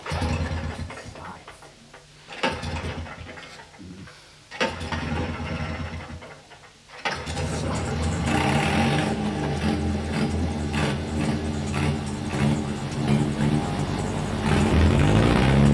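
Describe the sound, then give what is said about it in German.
A motor vehicle engine starts up. Uneven, fluctuating noise rises and dips for several seconds, then the engine catches and runs with a loud, steady rumble and hum that grows slightly louder toward the end. “Dann ließ er an einem schönen Vormittag im Juli 1978 den Motor an.”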